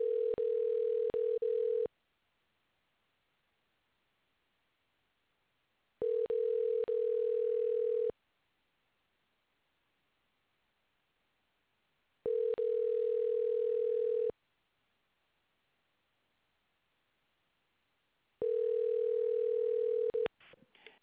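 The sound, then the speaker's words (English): A telephone ringback tone on a recorded outgoing call to a towing service: four steady beeps of about two seconds each at one mid pitch, separated by roughly four-second silences, with a faint click at the end. “Dialing.”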